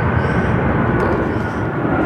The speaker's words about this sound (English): we've traded propellers for jets. That looks to me like a 777 going out. That's a Thai Airways 777 heading out at the moment.